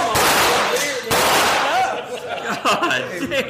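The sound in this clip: Gunfire from AR-15 rifles at a lake at night: two loud, sharp blasts about a second apart, followed by voices and laughter.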